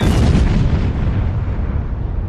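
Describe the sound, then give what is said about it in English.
Explosions at a DuPont explosives factory roar as one continuous, loud, deep rumble with heavy low booms that eases slightly toward the end. “A series of explosions rock the DuPont plant in nearby Carney's Point. It's an explosives factory, and when catastrophe strikes, it's seismic.”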